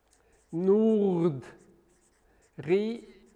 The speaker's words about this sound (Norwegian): Så hvis jeg da skriver